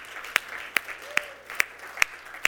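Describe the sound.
Audience applause welcoming members from the Nottingham campus comes through as about six sharp claps in a steady, evenly spaced rhythm over a low murmur.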